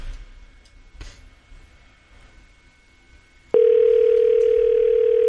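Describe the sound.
A telephone call rings out before reaching voicemail. A quiet stretch with one soft click gives way to a sudden loud, steady tone that holds unbroken to the end.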